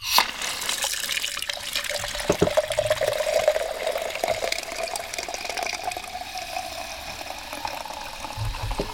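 Beer being poured in a continuous splashing, bubbling stream that runs steadily and fairly softly for several seconds.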